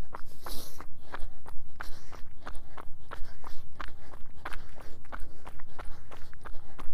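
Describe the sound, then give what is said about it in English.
Footsteps of an easy, relaxed zone 2 run: many quick, even strides in a steady rhythm, moderately loud over a low, constant rumble. “Now it's just an easy zone 2 kind of run.”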